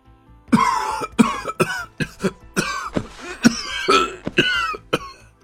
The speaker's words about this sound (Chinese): 一时间痰急上涌，捂住胸口大声咳嗽起来。